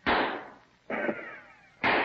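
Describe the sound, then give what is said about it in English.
Musket shots ring out as three sharp, loud blasts, each followed by a fading rumbling tail, evenly spaced with no voices. “two shots and two dead.”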